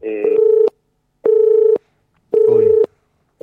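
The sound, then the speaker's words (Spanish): Telephone line tones sound while a call is being reconnected: three steady mid-pitched beeps of about half a second each, evenly spaced by short silences, with a fourth just starting at the end. “Vamos a ver si podemos tener algún... retomar la llamada con Cristian Lasarte”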